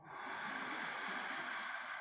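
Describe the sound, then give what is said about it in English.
A full, deep breath drawn in: a soft, steady airy rush lasting about two seconds, faint and alone with no talk. “We're going to take another full deep breath. Inhale.”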